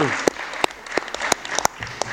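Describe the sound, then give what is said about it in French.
Audience applause at a meeting, with sparse, sharp claps landing in a fairly regular rhythm roughly three times a second, while faint voices carry on underneath. “Voilà, je vous remercie, on l'applaudit.”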